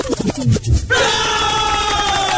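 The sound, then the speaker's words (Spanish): A crowd cheers and shouts, a loud dense roar that swells in after a brief burst of voices and holds steady to the end. “Ahí está, así me gusta ese entusiasmo, muchachos. Así aplaudan hasta las 12 de la noche.”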